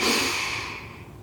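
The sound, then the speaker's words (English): A single deep breath taken during a mindfulness exercise: a soft, airy rush of breath that starts strongly and slowly fades away over about a second. “I'd like to invite you to take a few deep breaths. Breathe in”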